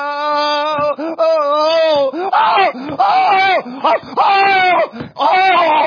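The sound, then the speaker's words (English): A voice imitates screams and wails of people in hell, drawn-out moaning cries that rise and fall in pitch, broken by short gaps and growing more strained toward the end. “and the screams get louder as more people die and go to hell.”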